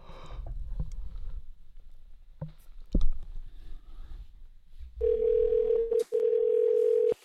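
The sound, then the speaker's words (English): A steady telephone call tone plays while dialing a hotel, coming in after a few faint clicks and handling knocks, holding evenly with one brief break before continuing. “Let's call a hotel that has apparently very rude employees.”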